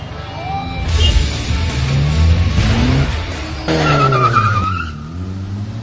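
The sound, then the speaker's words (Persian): Car engines roar and tires squeal in an illegal street drag race at one in the morning on a city street, with loud continuous revving whose pitch climbs and sweeps as the cars accelerate, skid and pass. “این هم از یه نوع مسابقه ایده ای که توی سطح شب و شبونه به صورت غیر مجاز در حال برگزاری است.”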